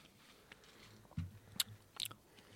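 Someone chews a dry, crunchy, crisp pasta. A few faint, sharp crunches and bites stand out against near silence.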